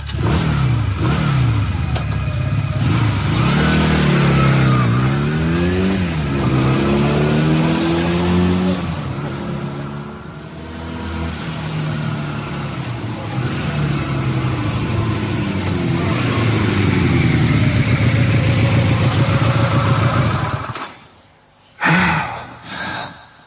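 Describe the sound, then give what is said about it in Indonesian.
A motorcycle engine revs as the rider leaves an office parking lot, its pitch climbing and dropping in several surges before settling into a sustained drone, which then cuts off sharply near the end. “Pergi ke parkiran mengambil motor dan meninggalkan kantor itu.”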